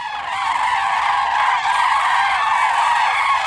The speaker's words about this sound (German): Das sind Kraniche, die wieder am Weg sind zu ihrem Sommerquartier. Die fliegen in riesigen V-förmigen Formationen und rufen ständig, sind auch nicht zu überhören.